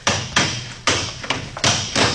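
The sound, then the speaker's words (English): Heavy blows smash a lock at the Clarion newspaper office in Devil's Hole, with six loud, dull thuds in an uneven rhythm, each strike ringing briefly before the next, with no voices. “All right, Buck. Smash that lock.”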